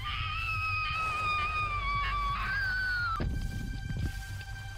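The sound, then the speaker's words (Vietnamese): A woman cries out as she loses her grip on the railing and falls down the stairs from the second floor to the first. Her long, wavering, high-pitched scream lasts about three seconds before breaking off. “Cô chỉ kịp kêu lên một tiếng.”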